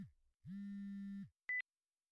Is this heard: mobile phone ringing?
yes

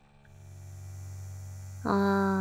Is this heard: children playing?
no

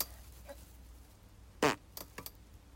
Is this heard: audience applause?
no

